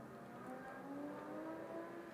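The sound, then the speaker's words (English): A motorcycle or car revs faintly in the background, a low, steady whirring engine drone whose pitch climbs slowly. “I'm not sure if you can hear that motorcycle in the background. It might be a car, but it keeps revving up for some reason,”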